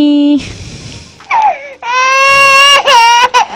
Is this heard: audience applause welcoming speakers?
no